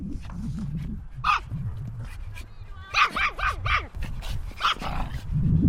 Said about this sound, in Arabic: حيث وجدنا عدة كلاب تلهو وتلعب وتبدو سعيدة فوق الحشائش الناعمة المنتشرة على مساحة تزيد عن 3500 متر مربع.